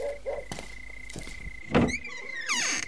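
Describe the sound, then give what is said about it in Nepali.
Door being opened at night: a few soft clicks, then a louder thunk, followed by high, wavering creaks and squeals near the end. “जानु त ढोका खोल्नु बुढा।”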